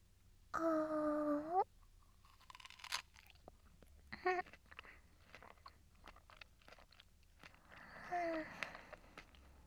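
Crunchy chewing and biting of food: a few separate bursts of crisp crunching with quiet scraping between them, faint and without speech.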